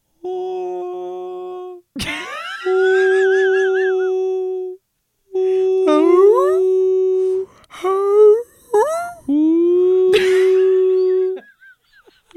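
Whales sing in long, tonal, moaning calls, some held steady and others sweeping up or wavering in pitch, in several separate phrases with short silent gaps between them.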